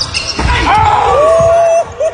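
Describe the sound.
A basketball dunk with the player punching the rim: a few dull, heavy thuds mixed with thin squeaking tones, loud and close together.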